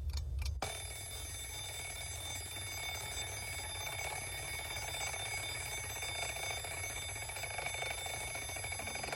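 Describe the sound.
An alarm clock rings to wake someone for work, giving a steady, continuous high-pitched ringing that holds at an even loudness from just after the start to the end, with no voices.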